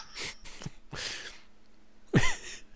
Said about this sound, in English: Another breath. Man, this guy must have asthma or something.